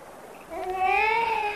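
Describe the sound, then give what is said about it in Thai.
A baby boy cries, a single short wail that swells and rises slightly in pitch after a brief quiet moment, fairly soft and heard alone. “เด็กเริ่มร้องไห้เพราะไม่คุ้นเคยกับคนแปลกหน้า”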